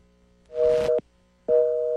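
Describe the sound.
A telephone busy tone after a caller's line drops: two evenly spaced steady beeps, each a dual-pitched hum lasting about half a second, separated by silence.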